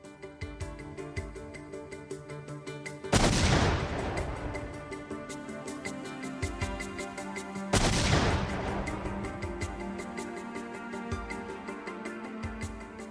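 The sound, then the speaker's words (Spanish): Two recreated pipe bombs detonate: gunpowder packed in metal pipes with end caps. Each gives a sudden, sharp explosive boom that decays slowly over several seconds, heard over a steady tonal background. “Para obtener información más detallada, los especialistas recrearon y detonaron las bombas.”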